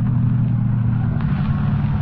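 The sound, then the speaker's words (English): A car engine hums steadily at low pitch as the vehicle drives through a gate into an amusement park lot to park, a constant rumble with little change throughout. “Drive right through the gate. You can park alongside that car.”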